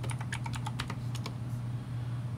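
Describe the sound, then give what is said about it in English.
Faint typing on a computer keyboard: a quick run of crisp keystrokes, then a pause and a last lone tap, all over a steady low hum. “All right, so I'm going to type in RFK Ice Cube.”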